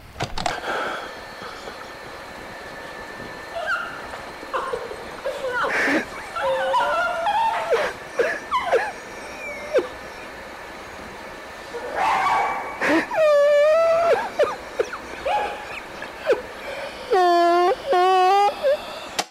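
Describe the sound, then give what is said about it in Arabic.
A dog on an old tape recording whimpers and yips in a few drawn-out, wavering high whines, with short sharp cries between them, over a faint constant tape hiss. “والدليل على ذلك انه كلبها سومي لسه معاه، هتسمع صوته على الشريط. خلونا نسمع.”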